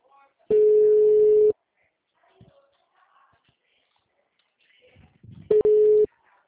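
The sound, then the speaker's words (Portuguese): Ringback tones sound as an outgoing phone call is placed. Two loud, steady single-pitch buzzes, each about a second long, are separated by roughly four seconds of near silence with faint rustling. “Deixa eu ver se eu consigo ligar, falar com ela.”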